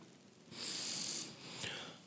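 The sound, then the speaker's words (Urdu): A deep breath is drawn into the chest during a Quran recitation lesson: a long, airy hissing inhale, followed by a second, shorter breath. “میں مجھے دیکھیں کہ اس پہلے سانس آپ نے سینے میں کھینچنا ہے, کیسے دیکھیں.”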